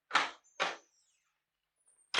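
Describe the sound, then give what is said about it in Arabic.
A door opening as someone enters: two short, soft, noisy bursts close together, a pause of near silence, then a third burst at the very end, all fairly faint. “انا خبطت وحضرتك قلتي لي ادخل.”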